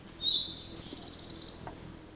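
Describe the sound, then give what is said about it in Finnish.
A red-breasted flycatcher gives its dry, clicking rattle call: a brief high note, then a rapid, faint rattling burst of clicks, soft and short. “Pikkusiepon laulu on helppo oppia tuntemaan, mutta tämä taustalta kuuluva naksutus, vetelähkö rätinä, on myös hyvä oppia tuntemaan.”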